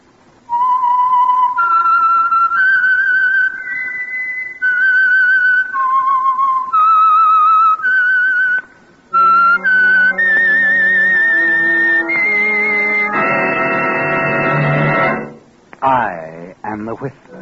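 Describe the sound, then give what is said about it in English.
A whistled signature tune identifying a radio program: a lone whistled melody moving through stepped, held notes, joined in its second half by sustained instrumental chords. “the signal to listen for is this whistle that identifies the Signal Oil program, The Whistler.”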